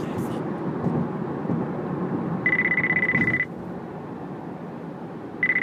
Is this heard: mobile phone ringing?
yes